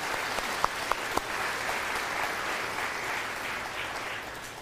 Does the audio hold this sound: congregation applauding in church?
yes